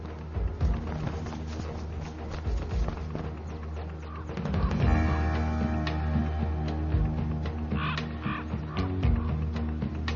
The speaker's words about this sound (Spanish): Aunque es más pequeño, el cuervo es el bravucón. Los cuervos son famosos por su sentido del humor.